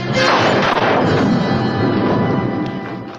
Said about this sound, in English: the phaser continues to fire on the temple